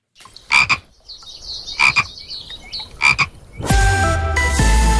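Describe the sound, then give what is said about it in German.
Common frog croaking: a few low, rough, rattling croaks come in short bursts. A louder, steady noise with sustained tones then takes over at the end. “Laut Experten ist der Grasfrosch in tiefen Lagen damit zunehmend gefährdet, auch wenn er schweizweit noch nicht als bedroht gilt.”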